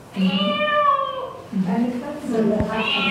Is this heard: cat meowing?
yes